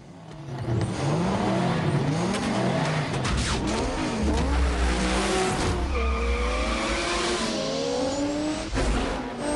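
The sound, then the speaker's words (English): Two sports cars race on a desert road, their engines roaring loudly and continuously while tires squeal, with whining tones that sweep up and down in pitch. “The cars race neck and neck. The speedometer breaches 100. A beefy, ringed hand shifts the gear stick.”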